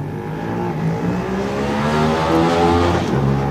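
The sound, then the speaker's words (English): A VTR SP1 racing motorcycle setting off at the start of a road race: a loud, steady engine drone whose harmonic pitch climbs gradually as it accelerates. “Let's hear Joey go. And following him, also on an SP1, is number four, John McGuinness.”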